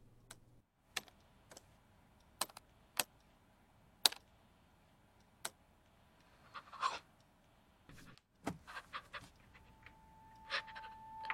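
Computer keyboard being typed on with trembling fingers: sparse, irregular single key clicks, sharp but faint, spread out with uneven gaps and a few closer pairs toward the end.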